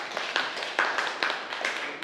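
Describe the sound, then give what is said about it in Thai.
Classmates clapping for a student in a classroom: a few faint, spaced claps in a loose, steady rhythm. “ปรบมือให้เพื่อนหน่อยครับสุดยอด”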